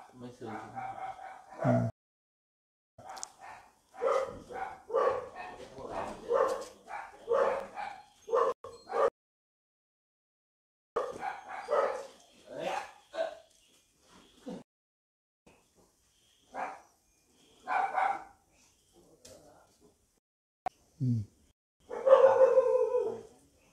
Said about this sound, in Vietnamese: Mấy con chó này.